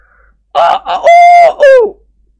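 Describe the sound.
A person's voice imitates a rooster crowing, giving a few short clipped syllables and then a long, bright, held call that ends in a falling note, loud and alone.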